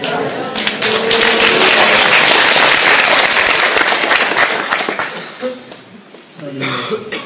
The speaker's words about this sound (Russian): Я еще ничего не рассказал, уже хлопаю.